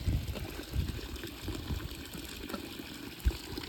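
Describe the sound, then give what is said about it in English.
Thermal sulfur water runs from a fountain into a thermos, a steady rushing gush of water that holds an even level throughout, with a few low soft bumps along the way. “About to fill up our thermos with some thermal water from the fountain. This is like straight sulfur water from the ground”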